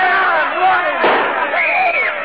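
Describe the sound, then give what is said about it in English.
A gunshot cracks in a courtroom full of agitated, shouting voices calling for a defendant. The sharp burst lands about midway, briefly cutting through the steady din of the crowd. “Who did that? Who fired that gun? I did.”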